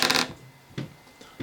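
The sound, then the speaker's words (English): Dice rolled for a stealth check in a tabletop role-playing game: a sharp clattering burst at the start, then a few softer taps and rattles as the dice settle, with no talking. “You want to roll stealth? Yeah. There's the dice up there.”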